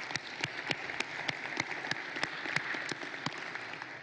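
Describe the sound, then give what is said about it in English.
Audience applause fills the room: dense, steady clapping with many sharp overlapping claps that runs the full length at a moderate, fairly even level, with no voices. “Those of you who are in the room, would you please give a big hand to our online television audience?”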